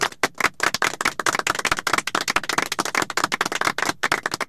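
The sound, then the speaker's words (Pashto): An audience claps in a quick, uneven burst of many sharp hand claps, sustained for several seconds with brief gaps and no talking. “چک چک ورته.”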